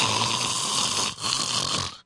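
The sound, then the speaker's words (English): A voice imitates a man's full-blown snore on an airplane: two long, loud, rasping snores follow each other, with a brief break between them. “snoring, full blown snore on the airplane.”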